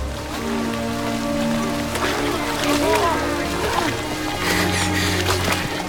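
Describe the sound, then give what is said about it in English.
Heavy rain pouring down in a steady, dense hiss with scattered splashes as prisoners in striped uniforms are marched across muddy ground; indistinct voices murmur underneath throughout. “The rain pours down and their striped uniforms are soon drenched.”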